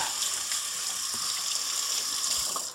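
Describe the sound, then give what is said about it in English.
Running tap water rinses hands clean of sticky dough while making coconut date bars, a steady, even hiss that holds at the same level throughout with no voices. “quick rinse of the hands”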